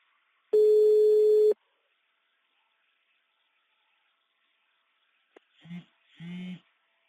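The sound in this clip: Telephone tone after the caller hung up: a single steady, fairly loud beep lasting about a second, then a long silence, then a couple of short bursts of voice near the end.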